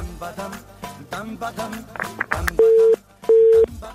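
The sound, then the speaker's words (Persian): A telephone busy tone sounds after a phone-in call disconnects: two loud, steady, low-pitched beeps with a short gap between them, following a stretch of talking. “خب تماس بانو زینت وفا بود، فکر میکنم قطع شد، امیدوارم دوباره تماس بگیرن”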